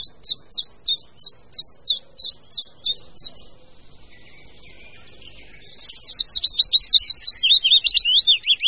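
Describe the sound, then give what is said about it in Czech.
A common chiffchaff sings a steady series of high, evenly spaced chirping notes. After a short quieter gap, a faster run of high, rapidly repeated notes follows. “Teď slyšíme hlas budnička menšího.”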